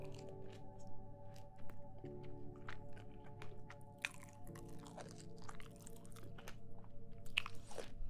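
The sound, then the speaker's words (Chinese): Chewing of an orange: soft, wet mouth sounds with a few faint crunchy bites, quiet overall, over a steady low hum. “还是橘子吃了”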